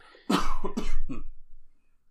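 A person coughs in a quick run of a few harsh, throaty bursts close together, the last one weaker, then trails off into quiet.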